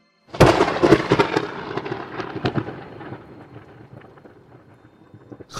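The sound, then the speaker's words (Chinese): Thunder with a sharp crackling onset, then a long, loud rumble that slowly fades over several seconds. No voices are heard. “打雷好可怕哦”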